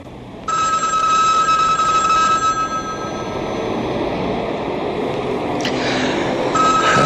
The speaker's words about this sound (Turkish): Bu sefer de telefon çalıyor. Kim arıyor acaba?